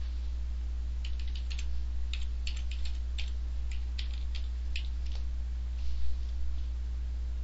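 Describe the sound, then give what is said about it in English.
Typing on a computer keyboard: irregular bursts of quick, light key clicks over a steady low electrical hum, with no talk. “Okay, so again, I'm going to just type it in, send it out to everybody.”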